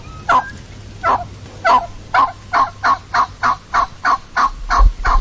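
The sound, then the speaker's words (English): Wild turkeys living in an urban environment gobble in a long series of loud, rattling calls that come closer together as the sequence goes on, with a low rumble near the end. “this is urban turkeys, not wild. They're wild turkeys in the urban environment.”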